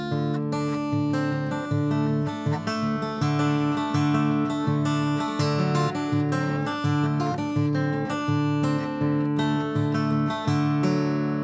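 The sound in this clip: An acoustic guitar in open D tuning is finger-picked on its high three strings, producing a steady, even rhythm of plucked notes that ring into one another, played alone without talk.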